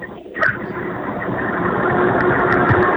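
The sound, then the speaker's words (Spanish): A car engine drones steadily while driving on a mountain road, heard thinly over a phone line as an even, rumbling hum that stays level throughout, with no voices. “Es que vas manejando. Sí, estoy por aquí por la cordillera.”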